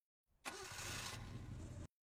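A car engine starts up again and runs steadily for over a second, a loud, even roar that cuts off abruptly.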